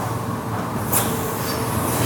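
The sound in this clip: A bacon processing machine runs fast through a night shift, a steady, loud mechanical drone with broad rushing noise that holds level for the whole stretch, with a brief brighter swell near the middle. No voices.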